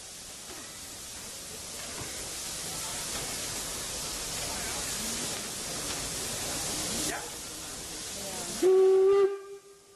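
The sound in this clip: A steam locomotive at a track end hisses steadily with a loud, broad rush of steam for several seconds, then gives one short, shrill whistle blast with clear harmonics before the sound cuts away.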